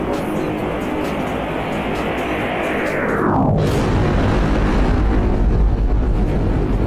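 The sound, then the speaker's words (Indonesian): Roar of a Dassault fighter jet, loud and steady, with a sweeping fall in pitch partway through that leaves a heavier, deeper rumble to the end. “Kali ini kita akan membandingkan Sonic Boom pada jet tempur. Pesawat pertama, Dassault Travel.”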